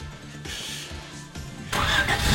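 A Renault 19's engine cranks with a repeated, churning starter rhythm, then catches and bursts into a louder, steady running roar.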